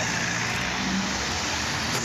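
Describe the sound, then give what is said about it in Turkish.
Road noise from a holiday traffic jam at the entrance to Muğla, where the queue of vehicles stretched for 22 kilometres: a steady, even rumble and hiss of vehicles that continues unbroken, with no horns or separate events. “Öte yandan tatil için yollara düşenler Muğla girişinde trafiğe neden oldu. Menteşe ilçesinde başlayan araç kuyruğu 22 kilometreye ulaştı.”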